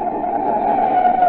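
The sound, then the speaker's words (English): Car tyres skid as a motorist jams on the brakes in an emergency, giving a steady, loud screech that holds for over a second without letting up. “That's the sound of a car as a desperate motorist has jammed on the brakes in an emergency.”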